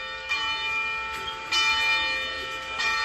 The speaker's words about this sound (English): This is the sound of the St. Kateri Church Bell in Gunawagi.